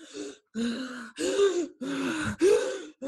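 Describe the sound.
A voice imitating a sick child's laboured breathing: a steady run of strained, groaning gasps, each drawn breath separated by a brief gap, fairly loud and even in rhythm.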